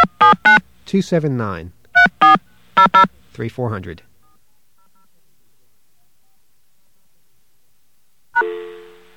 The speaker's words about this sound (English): AT&T, please dial the number you are calling, or 0 for an operator, now. Okay, let's do that.